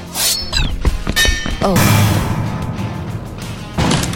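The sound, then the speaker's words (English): A blade strikes a heavy drink tray in a few loud, sharp metallic whacks with brief ringing tones, followed by a lower, sustained rumble. “grabbed the nearest object, a heavy drink tray. With a dramatic plan, she intercepted the blade in its swing.”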